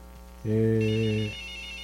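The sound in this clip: A single electronic telephone ring signals an incoming call: one steady, bright tone burst of under a second, over a faint low hum, with no voices.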